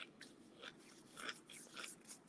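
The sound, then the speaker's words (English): Crunching on spicy jalapeno potato chips: faint, crisp bites and chewing crunches come in an irregular rhythm. “So I got what y'all may call crisps over where y'all are. I got me some tater chips. And I'm finna I'm just finna snack on.”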